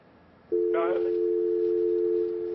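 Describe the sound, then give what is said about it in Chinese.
A steady telephone line tone, reported as a busy tone, sounds after a caller's line disconnects. It begins abruptly and holds one unbroken mid pitch to the end, with a brief voice overlapping just after it starts. “江先生的电话断掉了，希望你再给我们重新打回来哦”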